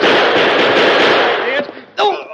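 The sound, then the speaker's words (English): Rapid gunfire erupts during a Western-style shootout, a dense, loud, continuous volley. It breaks off briefly, then another sharp burst follows, and a voice is briefly heard near the end. “Never saw such shooting in all my life.”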